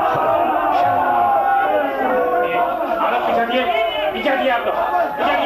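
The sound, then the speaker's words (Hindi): An unruly crowd shouts slogans: a dense, continuous wall of many overlapping voices, loud and steady throughout with no single voice standing out. “अरे अब ये नारे क्यों लगने लगे साहब?”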